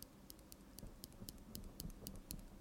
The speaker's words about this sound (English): You could knit into the microphone. Somebody would probably like that, wouldn't they? What, knitting into the microphone? It's like an ASMR, but for wool. Yeah. It does make a nice noise. Hang on a minute. Click the needle.